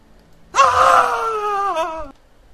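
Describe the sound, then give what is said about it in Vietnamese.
A single loud, anguished scream of pain lasts well over a second. It is raw and strained, and its pitch sinks slightly before it cuts off abruptly. “Nghe tiếng kêu thảm thiết của Diêu Thanh Dương”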